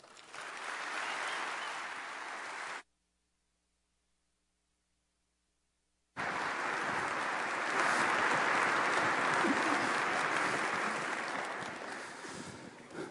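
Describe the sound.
Audience applause welcomes a speaker: dense, steady clapping breaks off into a few seconds of silence, then returns louder and sustained.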